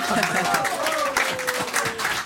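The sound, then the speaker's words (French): Audience applause for a guest, a dense patter of many hands clapping steadily while a voice speaks over it. “Applaudissements.”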